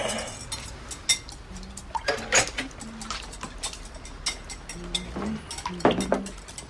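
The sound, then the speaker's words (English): Eggs are scrambled with a fork in a bowl, giving many light, irregular clinks and taps of metal against the bowl, fairly soft with small bright accents. “Mary Jo cracks eggs into a bowl. She scrambles them with a fork and smiles at Jack, who is just waking up in her bed.”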